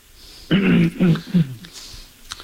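Someone clears their throat in three quick, rough, voiced bursts, loud and on their own, followed by faint low background noise.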